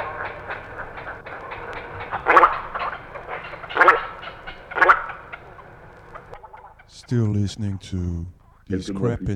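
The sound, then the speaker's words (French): Little egrets call from their nest in the trees, giving a few harsh, croaking calls over a low background. A voice then begins speaking. “Au-dessus d'eux, dans les arbres, les aigrettes garzettes ont établi leur nid. Elles conversent calmement à leur manière.”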